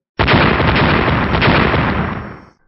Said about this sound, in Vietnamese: Những tiếng nổ kéo dài liên tục không ngừng một khoảnh khắc nào, có thể thấy hư không chấn động không thôi.